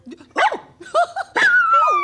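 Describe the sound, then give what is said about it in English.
A dog barks in a few loud, high yips and barks in quick succession, with the last one drawn out into a longer whining cry. “This is Charlotte's dog, Bow Bow. He's generally a good boy.”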